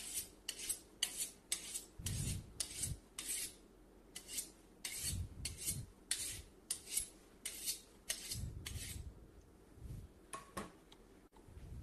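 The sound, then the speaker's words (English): A kitchen knife is sharpened with many quick rasping strokes of steel in a fairly regular rhythm, some landing with soft low knocks, and no talking. “I'm going to sharpen my knife once more time before I'm being done with this.”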